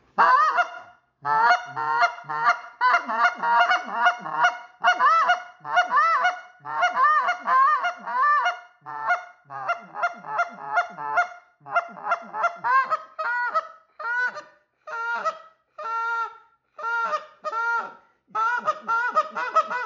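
Goose call blown to give a hollow, resonant honking tone: a long run of loud, sharp honks and clucks in rhythmic bursts with brief pauses, heard alone without talk.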